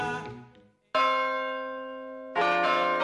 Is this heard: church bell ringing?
yes